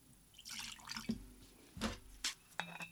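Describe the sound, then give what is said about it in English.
One ounce of vodka being poured into a glass for a mixed drink: soft liquid drips and splashes arrive as a few brief, quiet events over low background noise. “We'll do 1 ounce of vodka.”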